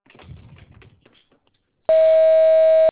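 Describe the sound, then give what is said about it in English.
A voicemail beep signalling the start of recording: a single steady, clear tone lasting about a second, preceded by a faint voice that fades out. “Please speak clearly after the tone. Your voicemail is being transcribed by Junction.”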